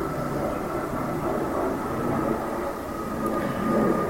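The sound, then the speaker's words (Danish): An airplane passes overhead in a quiet place with few flights. Its low, broad roar holds steady throughout and swells slightly near the end, with no voices. “Kommer der et fly? Der er ikke så mange fly ellers her. Og nu flyet passeret på samme måde,”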